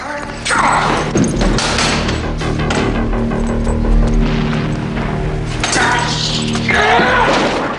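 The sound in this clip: Wooden boards blocking a doorway being smashed down, a dense run of heavy thuds, cracks and crashing impacts that stays loud throughout.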